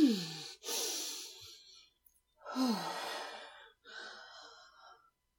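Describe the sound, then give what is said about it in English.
Deep, slow breathing to calm down: four long, airy breaths with sigh-like exhales, quiet and unaccompanied, separated by short pauses. “Calm down. Deep breaths.”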